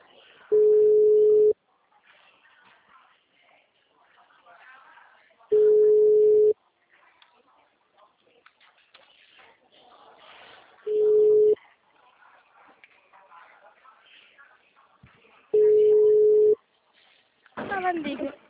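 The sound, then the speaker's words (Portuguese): Telephone ringback tone sounds while a call is placed from a bank office: four steady mid-pitched tones of about one second each, evenly spaced roughly five seconds apart, with faint voices murmuring in the background between them. “Esse tá chamando.”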